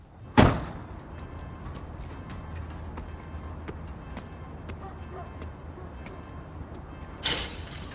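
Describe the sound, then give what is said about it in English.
A backyard gate and then a house's back door are opened, heard as two sharp clacks, one at the start and one near the end, with steady low noise in between. “He opens a gate to a backyard and lets himself in through the back door.”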